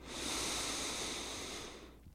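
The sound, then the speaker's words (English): One deep, slow inhaling breath, a soft, airy rush lasting about two seconds that holds steady and then fades out, heard alone. “open this week's episode just with a really deep breath. So let's take it together. Go ahead and inhale all the way in.”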